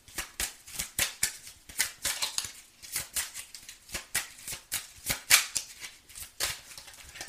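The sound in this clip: Tarot cards are shuffled during an Aries reading: many short, crisp riffling bursts in an uneven rhythm, each a quick papery flutter, heard alone without talk.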